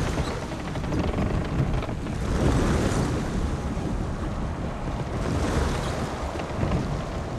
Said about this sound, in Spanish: Una barcaza se acerca a la costa.